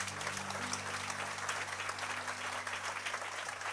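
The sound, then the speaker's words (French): A church audience applauds in steady, continuous clapping, faint and even throughout, with a low steady hum underneath. “Est-ce qu'on peut juste acclamer le Seigneur, frères et sœurs”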